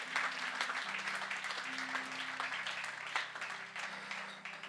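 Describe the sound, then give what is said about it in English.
Applause from a church audience for its pastors: dense, steady clapping that fills the whole stretch at an even loudness, with a low sustained tone underneath. “can you guys give it up for your pastors, Pastor JP and Rachel?”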